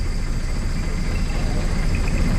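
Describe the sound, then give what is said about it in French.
A boat engine with a failing water pump, heard while travelling by boat through flooded forest: a loud, steady, low rumbling drone that holds at one level without gaps. “C'est la panne. Le moteur ralentit.”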